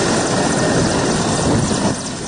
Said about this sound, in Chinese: 大约十分钟后，一架直升机稳稳降落